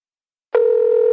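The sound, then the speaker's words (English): Telephone ringback tone on a call placed over speakerphone: after about half a second of silence, a single steady, mid-pitched electronic tone with a faint buzz starts abruptly and holds unbroken to the end. “But I'm going to put her on speakerphone. Okay, it's ringing.”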